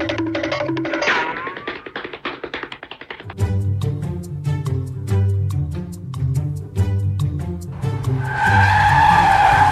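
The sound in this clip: A vehicle skids to a stop, its tires letting out a loud, bright screech in the final seconds after a steady, rhythmic music beat with deep bass.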